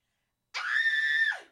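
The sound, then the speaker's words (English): A high-pitched scream, one sustained, shrill shriek that holds a steady pitch for under a second before trailing off, loud against silence. “I screamed in a weird, high-pitched shriek.”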